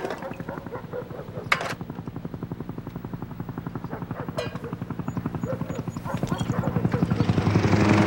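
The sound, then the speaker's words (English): A small helicopter swoops in, its rotor beating in a fast, steady, rhythmic thump that grows gradually louder toward the end. “A small helicopter swoops in.”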